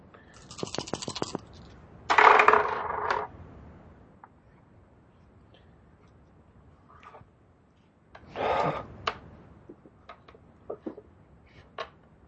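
Dice clatter across a table during a tabletop role-playing game session, in a few separate bursts of rattling with quiet gaps between them and faint breathy sounds.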